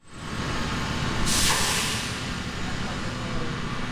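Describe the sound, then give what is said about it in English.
A fire truck backing out of a Clearwater fire station, heard as a steady low engine rumble throughout, with a bright burst of hissing air rising near the middle and then easing back into the drone. “That's the sound of a fire truck backing out of a Clearwater fire station”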